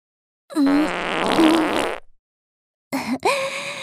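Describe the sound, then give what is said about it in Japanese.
Loud flatulence: a long, sputtering fart with a tonal buzz, then after a short silence a second, shorter burst, with no voices. “私もおなら出ちゃった。しかも、君よりずっと大きな音だったわね。”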